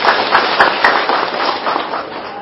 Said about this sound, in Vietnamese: Giỏi, các vị giỏi cho chàng pháo tay đi.